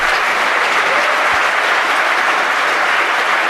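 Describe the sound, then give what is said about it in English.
An audience applauds with dense, steady clapping that stays loud and even from start to finish, with no voices standing out. “they're applauding the German magazine IX”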